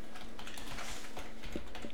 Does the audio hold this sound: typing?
yes